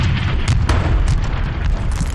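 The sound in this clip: Artillery cannon fire explodes in a loud, heavy low rumble that booms without break, with sharper crackling bursts riding on top throughout.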